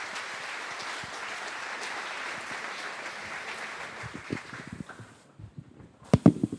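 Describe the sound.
An audience applauds to welcome a couple onto the stage. The steady, dense clapping thins out and dies away, with a few louder scattered claps at the end.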